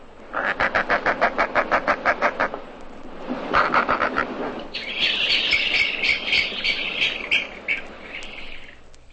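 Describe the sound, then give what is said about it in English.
Roseate spoonbill calls: a rapid, regular run of loud buzzy pulses, a brief second burst of similar pulses, then a longer stretch of dense, higher-pitched chattering. No one speaks. “Page 29. Roseate Spoonbill.”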